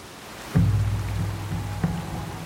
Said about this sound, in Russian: Бурный поток стекает с больших каменных уступов, вливается в озерцо и течет дальше.